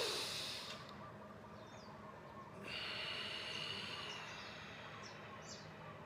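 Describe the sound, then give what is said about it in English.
A slow, deep human breath, drawn and released as a soft airy hiss that swells in two long waves over a quiet background. “So the first one I'm gonna do is just the old-fashioned deep breath. So it looks and sounds like this.”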